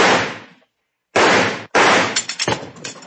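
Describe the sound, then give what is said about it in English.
Gunshots blast at a bank vault handle in a western radio drama, a few loud sharp cracks separated by brief silences, the later ones trailing into a ragged clatter of smaller bursts. “Stand back. I think I can shoot that handle off.”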